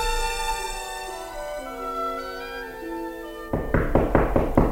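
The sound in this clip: Knocking: a quick series of a few firm knocks follows a sustained musical tone that fades beneath them.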